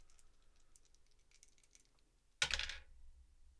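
Dice rolled for a tabletop roleplaying game: after a near-silent pause, one sudden clattering burst rattles briefly and dies away within half a second.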